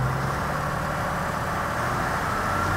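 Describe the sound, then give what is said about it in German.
A tractor engine runs at full throttle while driving a vibrating PTO implement, giving a loud, steady mechanical drone with no pauses or changes in pitch. “Der Schlepper fährt gleich mit Vollgas und das Gerät macht auch noch seine Schwingung. Und dann wird das ein bisschen ungemütlich. Machen wir Zapfwelle an.”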